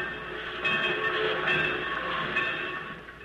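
A train in a small town's busy railroad yard: a steady, continuous mechanical rumble with faint clatter, moderately loud and heard without talk.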